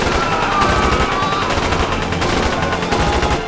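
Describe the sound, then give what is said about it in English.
Rapid automatic gunfire from a pair of machine pistols fires as one loud, dense, continuous burst that lasts the whole moment. “raised the pair of machine pistols and opened fire.”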